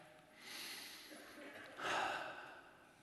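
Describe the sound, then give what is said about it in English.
A person takes a deep breath during a guided meditation set in a small church, heard as soft, airy breath noise that swells twice, the second swell slightly stronger, faint and with no talk over it. “You take a deep breath”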